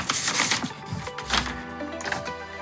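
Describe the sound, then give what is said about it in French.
A paper envelope is opened during a live radio prize draw, with a short run of crinkly rustling and tearing bursts that rise and fade. “Attention, je fais un roulement de tambour. On est parti. Ouverture de l'enveloppe. On l'entend.”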